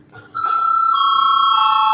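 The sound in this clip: An electric bell sounds in a parliament chamber to call members to a vote. After a brief quiet start it settles into a bright, sustained ringing tone that runs unbroken to the end.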